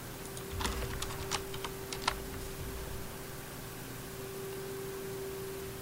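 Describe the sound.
Computer keyboard typing: a quick run of faint, light key clicks fills the first two seconds, then fades into a steady low hum and hiss.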